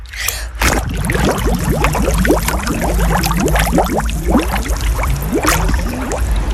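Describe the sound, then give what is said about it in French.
Bubbles blown underwater by a swimmer in a swimming pool: a brief burst, then a continuous run of many bubbling, gurgling pops with quick rising chirps, fairly loud and steady. “Tu essaies de faire un bruit de bulle là sous l'eau pour voir un peu ce que ça donne?”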